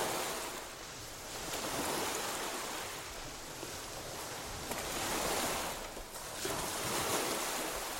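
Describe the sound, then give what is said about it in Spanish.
Sea waves surging beneath a building on a rock, heard as slow, rhythmic swells of rushing, hissing water that rise and ebb in broad waves, moderately loud with no voices. “Incluso me parecía oír al rítmico vaivén del agua bajo el mismo edificio.”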